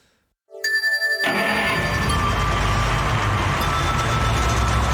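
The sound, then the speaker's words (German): Racing video game track audio with music and engine sounds: after a brief silence, a tonal chime enters, then a dense, steady, loud wash of sound continues to the end. “einen kleinen Action-Track vom Dolphin Park und vom Drake Lake, unterschiedliche Strecken. Einfach mal vor, da ist dann ein bisschen Musik und die Motorgeräusche und so weiter.”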